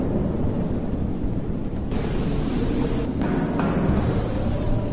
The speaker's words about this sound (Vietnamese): Cơn bão lại nổi lên với tất cả sự dữ dội của nó.